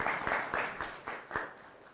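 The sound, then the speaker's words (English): Audience applause at a spiritual lecture: a dense patter of hand claps with regular surges of intensity, fairly faint and muffled, with no one talking over it. “A big round of applause to all of you.”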